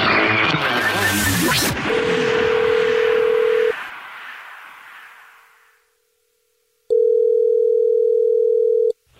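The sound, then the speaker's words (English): A telephone dial tone plays as a listener is being called back: a steady tone sounds under a fading noisy burst and cuts off, then after near silence a louder, steady tone holds for about two seconds. “You texted in at 41061 saying you had a dirty little secret. So this is the Jubal Show and we're calling you back”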